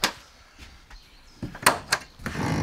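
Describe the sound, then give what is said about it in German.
A few sharp knocks and clatters as the hatches of a mobile snack and grill trailer are opened, separated by quiet gaps, then a rising rustling noise. “Ich will erstmal die Luken aufmachen.”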